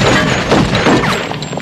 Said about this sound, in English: The limo engine explodes in a pillar of flame.